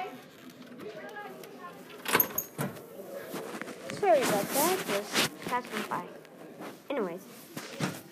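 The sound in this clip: Rocking chair creaking and knocking in irregular bursts, with indistinct voice-like sounds running underneath.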